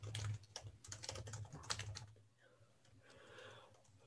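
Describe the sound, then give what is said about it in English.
Typing on a computer keyboard: rapid, uneven clicking keystrokes fill the first two seconds, then the sound drops to quieter, sparse taps and faint background noise, with no voices. “Can you just send that to me then? Like whatever you typed.”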